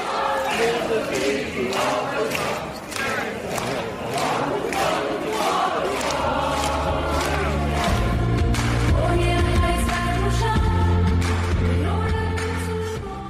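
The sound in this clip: Audience members sing the theme song from the film Les Misérables together: a loud, continuous mass of many voices that rises and swells into a fuller chorus partway through.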